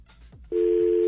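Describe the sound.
A telephone tone on an incoming call-in line cuts in abruptly after a brief quiet lead-in, then holds as one steady, unbroken pitch to the end.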